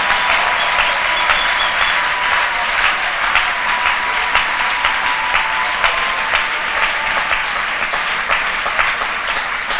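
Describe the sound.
Dense, continuous applause rises from a crowd at a worship service. The clapping stays steady and loud throughout with no pauses.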